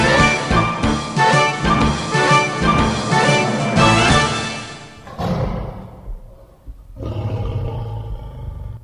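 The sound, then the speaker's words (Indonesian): A tiger roars in an eerie forest: a loud, sustained, rough roar lasts about five seconds, then fades to quieter, lower rumbling before swelling again near the end. “kayak nu suara macan apa ya?”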